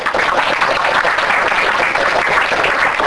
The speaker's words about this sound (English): Let's give a round of applause for